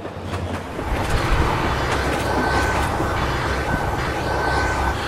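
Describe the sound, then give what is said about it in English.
A train rumbles past with a dense, steady roar of wheels and carriages that stays loud and even throughout, with no voices. “That was the sound of a train in the background.”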